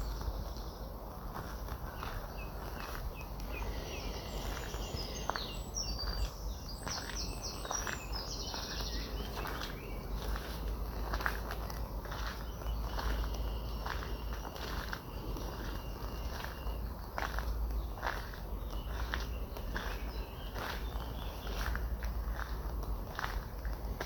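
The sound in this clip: Footsteps of a person walking outdoors in nature, soft crunching steps repeating steadily throughout over a constant low rumble, with faint bird chirps during the first half.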